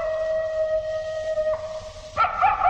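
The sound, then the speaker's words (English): A coyote howls at night in a canyon, a long, steady, high-pitched wail. Its tone shifts partway through, then breaks into a rougher, warbling burst near the end. No talking is heard. “What was that? It was a coyote, or sheep herd his lost dog, maybe.”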